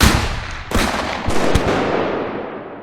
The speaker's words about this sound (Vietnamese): Sau khẩu lệnh của anh Hải, tiếng súng CKC vang lên, từng loạt đạn được bắn ra và găm thẳng vào người bọn chúng.